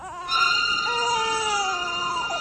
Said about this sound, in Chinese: 注意地听着婴儿的啼哭声